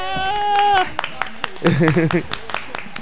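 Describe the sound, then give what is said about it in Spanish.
Scattered audience clapping on a Spanish comedy programme, brief and uneven, mixed with talking voices and a short burst of vocal sound in the middle. “Un aplauso.”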